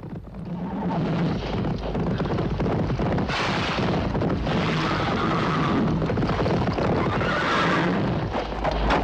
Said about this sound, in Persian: سوار شوید و بتازید.